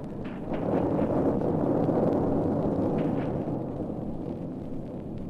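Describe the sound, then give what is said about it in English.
Cannon blast from a ship's salvo destroying a fort, heard as a deep, loud, sustained roaring rumble that swells early and holds steady for several seconds, with no voices. “It's awesome, sir, that blast. I think, why, yes, it's even taken the fort with it.”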